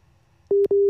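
Busy tone after a dropped phone call to New York: after a faint low hum, two loud, steady mid-pitched beeps sound in quick succession, the second slightly longer.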